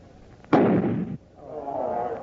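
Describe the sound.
A single loud gunshot-like blast from a radio drama, fired at a load of powder to explode it before it reaches a dam. The sharp onset becomes a rough, noisy burst lasting about half a second, followed by a softer, sustained noise.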